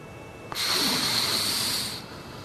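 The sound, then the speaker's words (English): A single deep breath in, drawn slowly to guide relaxation before sleep: a steady, airy hiss lasting about one and a half seconds that starts sharply and fades out, heard alone. “why don't you take a nice, deep breath in, like this,”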